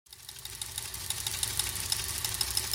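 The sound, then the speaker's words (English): A teletype fax machine runs with a faint, steady mechanical whir over a low motor hum, with fine rapid ticking throughout and no voices. “that's the sound of the teletype fax machine, and you know what that means.”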